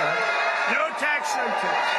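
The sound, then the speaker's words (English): Crowd cheering President Trump at a Las Vegas rally, a dense roar of many voices with whoops and shouts rising above it, alongside talk. “The crowd cheering President Trump at a Las Vegas rally, repeating a campaign promise.”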